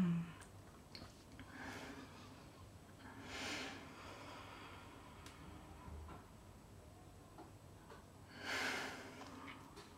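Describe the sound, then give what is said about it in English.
Deep breaths drawn in and let out, a few slow, airy swells of breath spaced apart across quiet, faint background with no talking. “if you could just take a few deep breaths in and out.”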